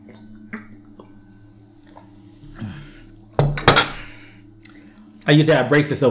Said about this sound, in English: I know y'all like, I'm taking way too long to eat that.